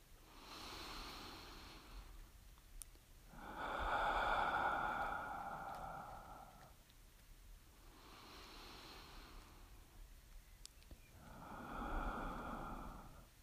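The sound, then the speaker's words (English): Soft breathing in through the nose and out through the mouth during a guided meditation: slow, airy breaths that alternate steadily, with the louder inhales carrying a faint nasal whistle. There is no talk. “And now start to just listen to your breath. Listen to the noise your nose makes as it breathes in the air.”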